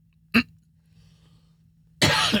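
A single sharp cough from someone with a tickle in the throat, followed by a quiet gap and then a loud, rough burst that runs to the end.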